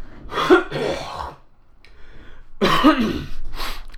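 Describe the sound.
Throat clearing in two rough, gravelly bursts, each about a second long, separated by a quieter breathy pause.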